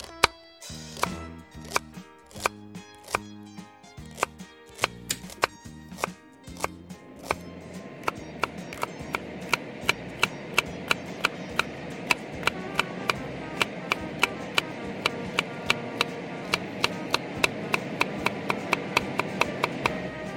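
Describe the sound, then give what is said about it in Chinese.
A knife dices red chili peppers on a board, giving many sharp, evenly spaced chops. The strokes are sparse and slower at first, then become rapid and regular, with no talking. “红辣椒把它切成丁状”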